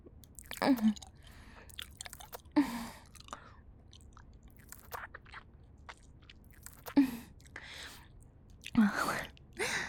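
Soft, wet chewing of gum in a quiet space, with the mouth working steadily and a few louder smacking bursts spaced apart, plus faint breathy sounds between them.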